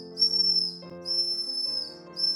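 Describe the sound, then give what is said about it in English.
A ship captain's whistle blown in shrill, high-pitched blasts, three in quick succession with the last cut short, over a low steady hum. “Captain Shotover blows his whistle.”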